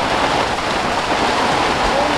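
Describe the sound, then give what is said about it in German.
Heavy rain and hail pound on a tent during a storm at an outdoor music festival: a loud, dense, unbroken roar of patter that holds steady throughout. “Der Regen prasselt unwahrscheinlich laut hier auf unser Zelt nieder.”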